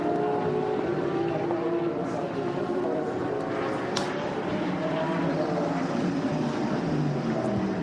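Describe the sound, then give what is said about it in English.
Engines of Audi and Porsche race cars coming into the pit lane make a steady, dense droning roar with a whining edge that runs unbroken throughout, with muffled voices faintly beneath. “Into the pits comes the Audi. Into the pits comes the Porsche.”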